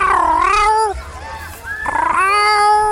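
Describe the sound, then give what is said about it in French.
A cat meows outdoors in a park, giving two long, loud, wavering calls separated by a short gap. “C'est le bruit d'un chat et on est allé le voir.”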